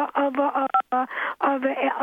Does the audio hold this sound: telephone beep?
yes